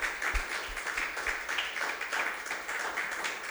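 Congregation applauding during a church service, a dense, continuous patter of many hands clapping at a moderate level for a few seconds, with occasional low thumps and no speech over it.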